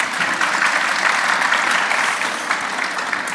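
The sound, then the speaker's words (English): Audience applause welcoming a panel, dense clapping from many hands that stays loud and even throughout, with no talk. “So can we give our panel a warm welcome?”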